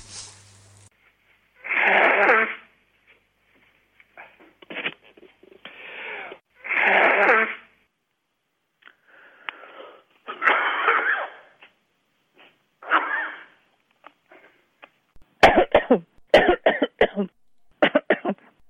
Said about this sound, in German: Entschuldigung. Denn dein ist das Reich und die Kraft und die Herrlichkeit in Ewigkeit. Amen. Gesundheit.